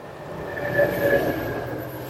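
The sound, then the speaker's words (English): A train rumbles steadily throughout, with two brief higher tones rising out of the noise near the middle before the sound settles back to an even roar. “Final train.”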